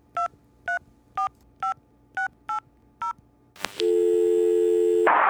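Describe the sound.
Telephone keypad tones: seven short, evenly spaced dialing beeps at varying pitches, then a click and a steady, sustained line tone.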